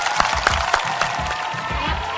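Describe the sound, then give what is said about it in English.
Applause and cheering for panel guests at a live event at the Science Museum, a loud, continuous roar of clapping with a few heavier accents near the start. “Thanks very much to our guests, of course, Aaron, Murray and Sarah. Round of applause for them.”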